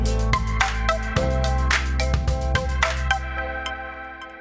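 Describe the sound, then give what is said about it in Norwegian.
A phone ringtone plays while a call goes out to a colleague: a melodic, tonal pattern of repeated bright notes with steady low harmonics that holds at an even level, then thins and fades near the end. “vi har ringt opp eh, en kollega av oss som heter Mari”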